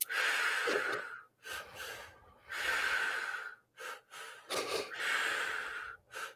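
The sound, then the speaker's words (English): Forceful inhales and exhales from breathwork, a rhythmic series of loud, rushing breaths with short pauses between them. Long strong pulls alternate with quicker, sharper bursts of air, and no talking is heard. “Powerful inhale, powerful exhale. Deepening that breath.”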